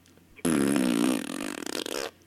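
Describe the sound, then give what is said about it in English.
A single drawn-out fart lasts well over a second. It starts loud and thick, then breaks into sputtering, uneven bursts before cutting off, with no voices. “it's just one last little fart.”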